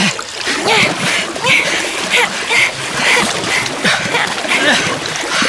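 Paddles splash through water in a paddling race, making many loud, rhythmic splashes at a steady, quick pace that continues without pause.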